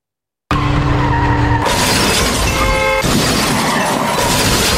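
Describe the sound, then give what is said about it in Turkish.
A car skids out of control and crashes into a café's outdoor seating area in Adapazarı, Sakarya. After a moment of silence, a loud screeching and crashing din bursts in abruptly and stays loud, changing character twice. “Sakarya'da kontrolden çıkan otomobil de bir kafenin açık alanına daldı.”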